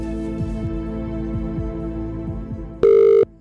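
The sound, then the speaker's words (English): A telephone being dialled for a cash giveaway call: a series of quick, regular dialling clicks over a steady backing tone, then one loud, steady ring tone that stops abruptly. “We hit dial.”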